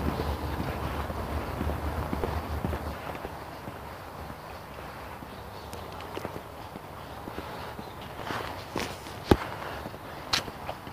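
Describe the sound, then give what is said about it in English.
A person walks, producing footsteps that are faint and irregular over steady background noise, with a few sharper steps standing out toward the end. “I just started walking. It's not going to break any speed records, but I need to get my legs broken in again.”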